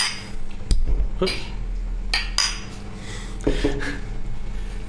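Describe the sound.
Glasses clink in a toast to a new drink rested on coconut and rum casks for seven months. A few sharp chinks and knocks stand out over a steady low hum and rustling background.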